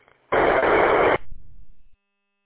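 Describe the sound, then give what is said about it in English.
A noisy squelch tail comes back from a GMRS radio repeater: a harsh burst of static just under a second long cuts off abruptly, then a quieter, rougher noise tail trails on briefly before stopping dead. “And I see our long, noisy squelch tails coming back too, so something is definitely going on up there.”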